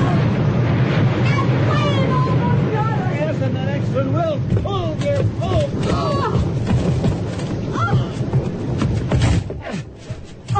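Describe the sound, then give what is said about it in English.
Strong wind blowing hard, a loud, steady roaring rush that fills the whole clip while people talk over it almost throughout. “The wind's blowing so hard!”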